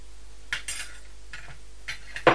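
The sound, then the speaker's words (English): Metal spoons clatter as a toy truck loaded with them falls onto the floor. A few light, scattered clinks are followed by a louder final clatter. “the truck's falling on the floor now, hasn't it?”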